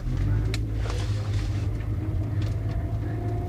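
Low, steady engine hum from a car as the driver gives it a little gas, a continuous droning rumble with faint mid-range noise, no voices heard.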